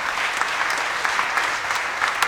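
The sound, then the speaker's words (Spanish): Applause fills a church after Mass, a steady, dense clapping from the audience that holds at an even loudness throughout with no voices standing out. “Fuertes aplausos, hermanos.”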